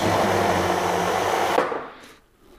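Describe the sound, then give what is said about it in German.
A blender whirs through oat flakes soaked in water with cinnamon to make plant milk: a loud, steady grinding roar that cuts off and winds down to near silence at the end. “Dann soll man die Haferflocken kurz einweichen lassen, ein paar Minuten. Und jetzt wird er einfach gemixt.”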